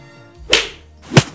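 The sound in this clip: Two sharp whip-like cracks from a chain weapon being swung around and striking, each a loud, bright burst spaced a little over half a second apart, with a faint swish building before the first and no voices.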